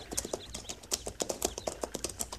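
Hoofbeats of horses ridden along a tree line: a steady run of many soft, rapid clip-clop thuds, evenly paced and moderately loud, with no voices.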